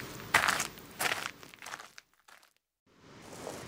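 Footsteps on a dry hiking trail: a few uneven, gritty crunches and scuffs, then a short quiet pause before the steps resume.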